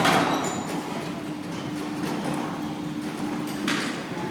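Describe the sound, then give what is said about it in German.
A large gate closing at a cemetery entrance hall, heard as a faint, sustained low drone of movement with a soft knock near the start and another near the end, over quiet background hiss. “da schließt sich schon, Sie hören es, liebe Zuhörerinnen und Zuhörer, das große Tor.”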